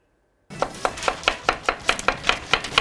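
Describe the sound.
A knife chops onions in a kitchen: after a moment of silence, many quick, evenly spaced strokes land in a steady rhythm, each a crisp tap on the board.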